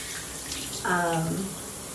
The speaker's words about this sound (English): I'm just sitting down, and the water is so nice. I just love the way it feels. I'm like under a little waterfall here